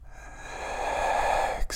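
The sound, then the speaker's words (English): A deep breath is drawn in slowly, a soft airy hiss that swells steadily for about a second and a half before stopping abruptly, with no voice over it. “Inhale.”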